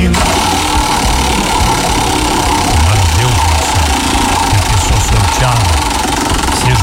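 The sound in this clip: A roulette wheel spins for a prize draw, making a loud, continuous rapid mechanical rattle and whir that runs throughout, with a voice talking over it partway through.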